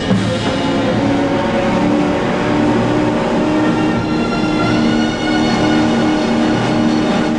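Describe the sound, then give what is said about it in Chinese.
A speedboat engine, its fuel tank shot, roars as the boat races ashore: loud, continuous, rumbling engine noise with no talk. “已经被打爆油箱的快艇冲到小岛的岸上”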